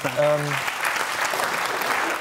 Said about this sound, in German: Jetzt kommt hier spontan Applaus in der Runde.